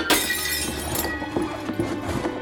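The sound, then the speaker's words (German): A glass window pane shatters as a donkey's hooves break through it: a sharp crash at the outset, then a spray of tinkling shards with a few smaller impacts that fade out. “Der Esel wollte sich mit seinen Beinen auf dem Fensterbrett aufstützen, um noch besser singen zu können. Doch er rutschte ab und seine Hufen stießen durch die Scheibe.”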